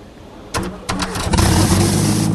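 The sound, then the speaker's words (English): An engine driving a geared piston pump starts up with two sharp bursts as it turns over, then catches and settles into a fast, steady running clatter. “It works. But the pump's going more like 3,000 RPM than 300.”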